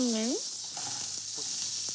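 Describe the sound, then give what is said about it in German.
Iberico pork cheeks sizzle as they are quickly seared in a hot pan. A steady, bright frying hiss runs throughout, with a few faint pops and clicks beneath. “Das wird jetzt eben mal schnell angebraten.”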